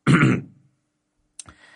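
A man clears his throat with one rough, gravelly rasp lasting about half a second, followed after a short pause by a fainter, brief throaty sound.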